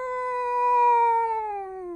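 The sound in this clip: A long meow from a voice imitating a nekomata cat demon in a Japanese folktale: one clear, tonal cry that holds steady, then slides gradually lower before stopping, heard alone.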